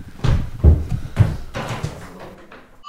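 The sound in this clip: A door is opened during a conversation: a few dull thuds and knocks, then quieter handling noise fading away.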